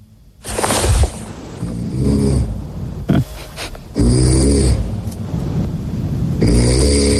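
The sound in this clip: A slim man snoring in his sleep: loud, rough, rumbling snores come in a few long bursts, with a sharp snort-like burst between them and no talk.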